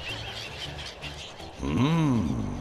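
A mischievous bird lets out a single loud call that rises and then falls in pitch near the end, after a quieter stretch of soft, low background tones.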